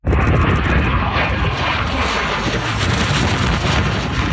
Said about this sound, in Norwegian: Det er tidligere denne uken et russisk MiG-29 jagerfly stryker lavt over bakken.